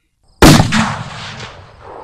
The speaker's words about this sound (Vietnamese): một loạt tiếng nổ khiến cho lão giật mình quay đầu nhìn lại.